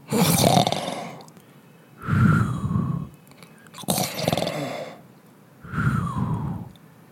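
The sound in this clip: Snoring of characters sound asleep after a tiring day, performed by a voice: four broad, rasping breaths in a slow, even rhythm with short quiet gaps between them.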